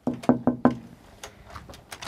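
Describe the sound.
Four quick knocks on the window of a fish restaurant, evenly spaced and fairly muted, with fainter scattered sounds afterwards.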